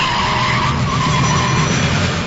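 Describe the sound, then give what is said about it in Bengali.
A car brakes hard and its tires skid in a loud, continuous squeal that holds steady for the whole short stretch. “গাড়িটা break কষতে গিয়ে একটু দেরি করে ফেলল।”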